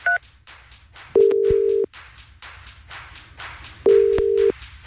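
Telephone call being placed by a Hungarian radio host to a contest listener: a short dual-tone beep, then two long, steady mid-pitched ringing tones separated by a pause, with faint background sound between them.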